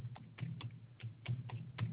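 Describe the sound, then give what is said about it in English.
Keystrokes on a computer keyboard: faint, irregular clicks tapped one after another, with several separate strokes spread unevenly across a low background hum. “See if you can tell me what it is by the way I'm typing.”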